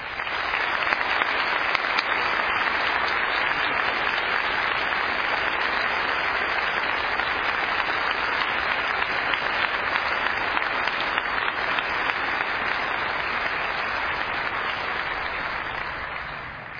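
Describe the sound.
An audience applauds to welcome an ambassador at a homecoming kickoff event. Clapping stays dense and even for about seventeen seconds, then tapers slightly at the end.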